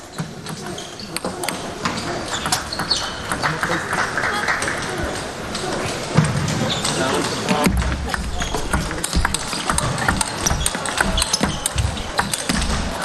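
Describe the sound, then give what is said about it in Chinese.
Table tennis ball bouncing in a rally after a let serve, with many sharp, light clicks over a crowd murmur while commentators talk throughout. “发球擦网了吧？ 擦网重发。”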